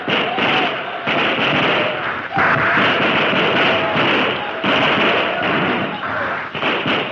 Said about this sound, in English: Tell the men to start firing now. Those new rifles will do the trick. They have targets to shoot at. Fire at will!